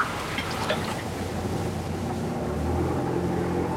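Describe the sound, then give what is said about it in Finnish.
Boat engine droning as the boat turns in toward shore, a low steady rumble blended with wind and water noise, with a deeper hum strengthening in the second half. “Vene kaartaa viimein Paijaan.”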